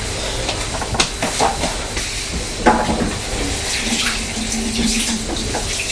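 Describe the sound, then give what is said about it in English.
Tap water runs steadily into a sink while hands are washed, making a continuous broad hiss with a few light splashes and small knocks mixed in. “Wash your hands. You want to wash your hands?”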